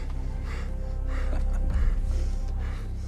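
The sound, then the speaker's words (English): Heavy, rapid panting from a man aiming a gun during a tense confrontation: a run of loud, rhythmic breathy gasps, one after another, with no talk. “Panting, Joey aims the gun down at Matt.”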